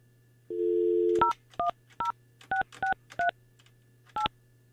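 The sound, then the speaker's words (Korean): Telephone keypad dialing tones follow a steady dial tone as a number is called: seven short, clear beeps in an uneven rhythm, with a longer pause before the last. “8580번 8580번님께 전화합니다.”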